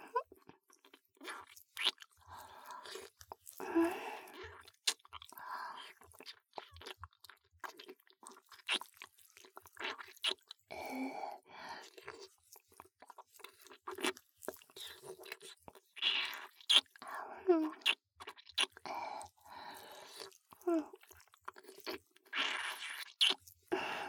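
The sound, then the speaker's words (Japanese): Wet sucking and chewing on a puffy turtle-shaped treat, with many soft crunches, smacks and squishy clicks in an irregular rhythm, faint and continuous throughout. “ぷっくりカメさん。かわいいな。少ししゃぶっちゃおう。”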